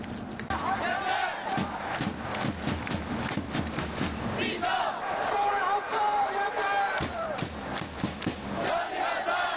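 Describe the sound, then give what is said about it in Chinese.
Yanbian football fans chant and shout in support of their team at an away match in Dalian, a loud, unbroken roar of massed voices with rhythmic surges of chanting lasting nearly ten seconds. “比赛过程中，延边球迷的助威声此起彼伏，大家不遗余力地为延边队员呐喊助威，鼓劲打气。”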